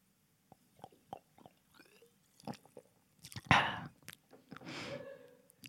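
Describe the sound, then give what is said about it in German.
Sipping a drink: scattered soft mouth clicks, then one sudden louder wet swallow, followed by an airy breath that trails off, all fairly quiet with no talk. “Ich muss kurz was trinken.”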